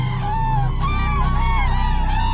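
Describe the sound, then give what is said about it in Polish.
Cranes calling from the Vistula riverside: loud, continuous trumpeting calls that overlap and waver in pitch, forming a dense chorus of honking cries. “Odpowiedział jej nie klekot bociana, ale klangor żurawi z nadwisły.”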